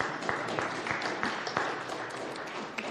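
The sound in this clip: Applause from a church audience, a dense, steady wash of clapping hands that holds at an even level for the whole stretch, with a few sharper claps standing out.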